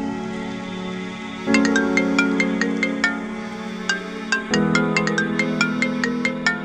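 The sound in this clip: Melodic phone ringtone: a repeating pattern of bright, bell-like high notes over a sustained tonal backing, ringing steadily and restarting its phrase partway through, with no talk.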